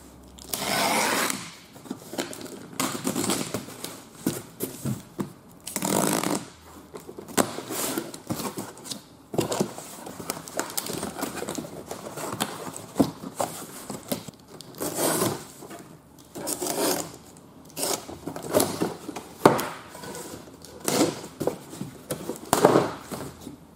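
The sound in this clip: Rustling and crinkling as a small parcel of about 26 cm is opened, with a toy car inside wrapped in paper. Many irregular bursts of crackling packaging are heard, with short pauses between them and no talking.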